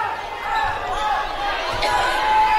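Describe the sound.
A basketball is dribbled on the court during a boys' basketball game, a few dull low bounces heard beneath constant crowd noise.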